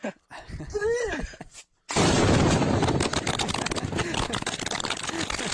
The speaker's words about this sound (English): Is that a real bomb? Yeah, that video kicks so much ass. This is live footage from Palestine.